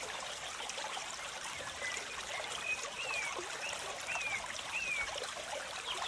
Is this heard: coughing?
no